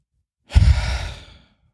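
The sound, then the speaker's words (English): A deep breath let out by a group on a count of three, one loud, long exhaled sigh lasting about a second, alone. “All right, everybody, on three, deep breath. One, two, three.”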